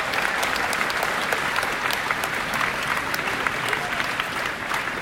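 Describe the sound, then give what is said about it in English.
A crowd at a Star Trek convention applauds to welcome a guest, with loud, continuous clapping that holds steady and thins slightly near the end. “Please put your hands together in a warm welcome for Mr. Alex Kurtzman!”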